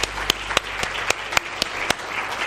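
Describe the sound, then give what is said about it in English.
A church audience claps along during a morning worship service, a dense run of many overlapping hand claps with sharper individual smacks standing out at a steady, brisk pace throughout. “Give the Lord a hand clap this morning.”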